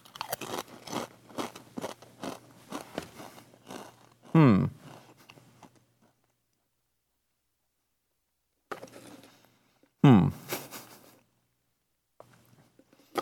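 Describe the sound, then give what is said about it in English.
Onion ring flavored Pringles potato chips are bitten and chewed, with dense crackly crunching up front. Two sharp, loud bites follow, each trailing into quieter chewing and separated by stretches of near silence. “So these are supposed to taste like the onion rings you get, I guess, at a fast food restaurant. And you'd think to yourself, well, do I really need an unhealthy snack to replicate an unhealthy snack? And the answer to that is, of course, yes. So let me give it a shot.”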